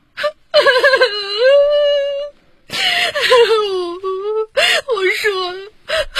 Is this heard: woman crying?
yes